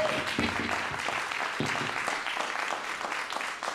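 A live audience applauds the band Big Country after their performance, with dense, steady clapping that stays loud and even throughout with no break.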